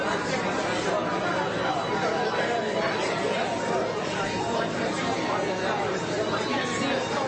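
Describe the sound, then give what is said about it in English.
Background noise in a restaurant in Detroit: steady, even crowd chatter, with many indistinct voices blending into a constant murmur. No single sound stands out. “So barely, just basic restaurant noise. Nobody too excited about that.”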